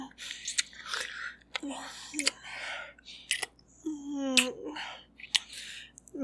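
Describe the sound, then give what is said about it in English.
Wet kissing and smacking mouth sounds come in a few moist bursts with clicks, mixed with soft breathy vocal murmurs. “Now, don't be such a prude. Let me give you a proper kiss. Open your mouth. Yeah, let my tongue in.”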